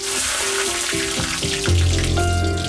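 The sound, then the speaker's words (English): Butter and diced onion fry in a piping hot pan, a loud, steady sizzling hiss that runs throughout, with sustained tones beneath it. “A piping hot pan. Ooh. A spoonful of butter melts gently across the surface. Throw in your diced onion and within seconds, the ingredients begin their transformation.”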